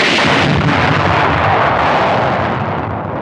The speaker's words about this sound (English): he holds the gun over his head and fires it into the sky, by complete chance hitting and destroying the rocket flying overhead